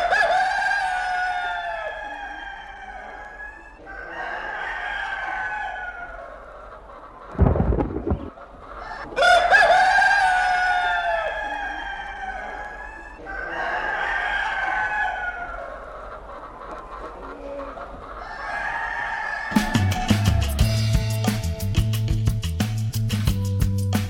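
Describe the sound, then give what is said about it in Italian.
A rooster crows in a series of long, loud, harmonic calls, each rising and then trailing off, with a short heavy burst of noise between two of them and a buzzy electronic tone near the end. “ogni tanto un gallo ci vuole, no?”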